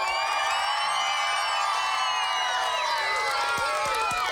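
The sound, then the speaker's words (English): A studio audience cheers and whoops, many voices shouting together in a loud, steady roar that holds for the whole stretch without letting up. “And then, of course, we have our phantasmagorical studio audience. Are you ready?”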